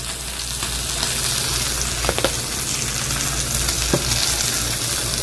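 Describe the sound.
Steak sizzling in a hot pan after a heavy coat of seasoning, with smoke rising: a steady, dense frying hiss with a few small crackles and pops. No one talks.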